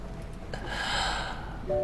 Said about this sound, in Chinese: 他用力喘息，似乎每一次呼吸都用尽了全身的力气。